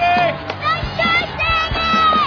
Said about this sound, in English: He missed it, and people are cheering.